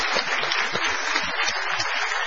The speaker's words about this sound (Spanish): Un aplauso. Muy bien, aplauso.